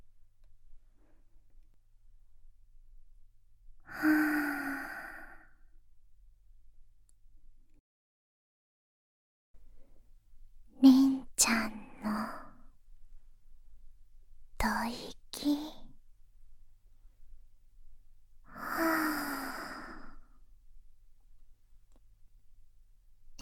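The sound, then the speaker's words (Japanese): Slow, deep breaths drawn in and let out, soft and airy, with long gaps between them and faint whispering in the middle stretch. “ゆっくり吸って。たっぷり満たしたら吐いて。”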